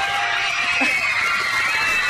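A crowd of kids screams at a mall while police officers escort them: dense, high, continuous shrieking and shouting that fills the whole clip at steady loudness, with no pauses.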